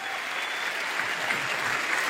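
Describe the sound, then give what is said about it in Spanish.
A church audience applauding: steady, dense clapping from many hands, fairly faint and even throughout, with no talk over it. “Damos un aplauso grande al Señor”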